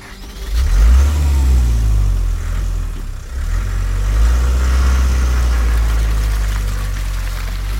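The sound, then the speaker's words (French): A car engine starts and runs at a loud, low rumble, swelling and easing as it revs while the car pulls away, with no voices. “il regagne sa voiture et disparaît aussitôt.”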